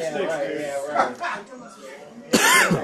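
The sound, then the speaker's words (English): A single harsh, loud cough after inhaling a bug, bursting out near the end after muffled vocal sounds. “Ooh, big cough there. I think I inhaled a bug.”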